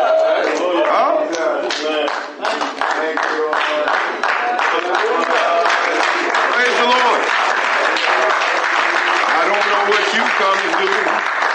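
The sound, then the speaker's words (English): A church audience claps hands during worship, steady, loud clapping running beneath voices throughout. “I come to praise the Lord. Hallelujah. Glory, glory. I came to clap my hands.”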